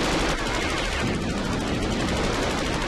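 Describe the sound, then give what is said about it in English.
Rapid gunfire from a MiG fighter jet's guns during an aerial chase, a dense, continuous and loud rattling burst that blends into a roaring wash of noise. “He's got a MiG on his tail. He's firing!”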